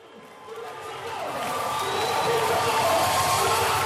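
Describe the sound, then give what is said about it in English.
Concert crowd at an album launch in Juba, South Sudan, chanting for peace, a dense roar of many voices that builds from a quieter start into a loud, sustained swell of chanting and cheering. “Hundreds of audience members chant, "Peace, peace, we are for peace, and one people, one nation," when MC Lomex takes to the stage.”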